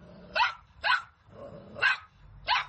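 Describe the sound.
A dog barks four times in short, sharp separate bursts, fairly faint and alone with no talk, with brief quiet gaps between the barks.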